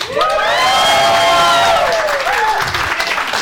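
Loud applause and cheering from a sound-effect button, a dense continuous wash of clapping hands with whoops and shouts from a crowd that holds steady throughout.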